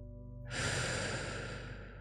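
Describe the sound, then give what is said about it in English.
A single slow, deep breath rises in about halfway through as a soft, airy rush, holds steadily, then gradually thins out. It is fairly quiet overall. “Taking a deep breath now.”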